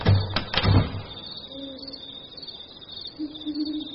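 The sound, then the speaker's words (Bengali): Doors being shut: two heavy thuds with sharp clicks in the first second, followed by a quiet stretch with faint, sustained tonal sounds. “সকলেই ঘরে গিয়ে দরজা বন্ধ করল।”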